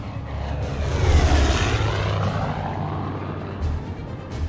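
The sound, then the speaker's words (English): Military planes flying overhead, a broad roaring engine drone that swells loud in the first couple of seconds and then holds as a steady low rumble, with no voices. “Military planes fly in the sky.”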